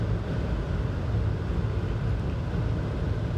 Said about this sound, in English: But yeah, I'm just cruising along. I realize I got my cruise control set, guys. But I've just been stepping on the gas the whole time, and I don't know why.